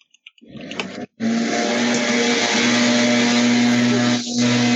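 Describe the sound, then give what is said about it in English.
A pool vacuum running outside gives a loud, steady motor whine with a low tonal hum. It starts abruptly after a few faint clicks and a brief gap, then drones on evenly. “I thought you were saying that was someone outside vacuuming the pool, probably.”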